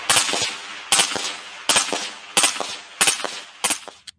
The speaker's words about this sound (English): Same firearm. As you can clearly see, the trigger is being depressed for each round that is fired.